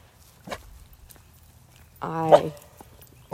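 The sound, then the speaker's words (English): A cautious leashed dog barks at a neighbor's basketball hoop, giving one short, fairly loud bark with soft ticks around it. “now she's barking at a basketball hoop that the neighbors brought out for the holidays.”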